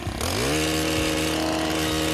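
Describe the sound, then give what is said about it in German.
A motorised earth auger screws into hard, dry, stony ground in western Munich. Its engine revs up and then holds a steady, loud, strained drone. “Der Erdbohrer schraubt sich etwas mühsam in den Boden. Der ist hart im Münchner Westen, eher trocken, viele Steine.”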